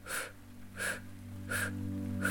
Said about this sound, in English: And then you're going to breathe in through your mouth, through an O-shaped mouth, in four counts.